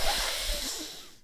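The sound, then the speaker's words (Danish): A deep, heavy breath is exhaled close into a microphone, a breathy rush of air lasting about a second before fading away. “Og så skal vi simpelthen have stoppet de der dybe vejrtrækninger ind i den mikrofon”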